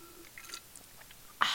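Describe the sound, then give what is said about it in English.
Sipping from a can of Celsius energy drink: soft, faint mouth and lip clicks, then a sudden louder, fizzy slurp near the end. “As I sip on my Celsius that is currently beside me, give you a little bit of ASMR.”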